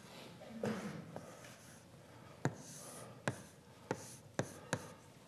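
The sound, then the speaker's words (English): Marker or chalk strokes on a lecture board while a diagram is drawn: soft scraping strokes first, then five sharp taps at irregular intervals, with no talk. “So let me draw a slightly different version of it.”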